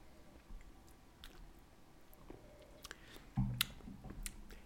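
Faint biting and chewing of a small lemon slice at a wine tasting, with soft wet clicks and crunches scattered throughout and one firmer bite partway through.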